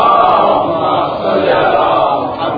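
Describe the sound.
Loud crowd shouting together in response to a Nara-e-Haidari chant at a religious gathering, a dense, sustained roar of voices that holds steady throughout.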